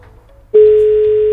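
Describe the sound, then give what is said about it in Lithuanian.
A steady telephone dial tone sounds while a call is being placed to a listener for a birthday greeting. A faint low rumble comes first, then the tone starts abruptly about half a second in and holds at an even, loud level to the end. “puiku, skambinu.”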